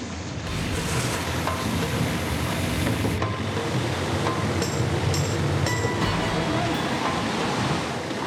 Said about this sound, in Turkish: İşte su geliyor. Dikkat edin. Suyu veriyoruz. İşte geliyor.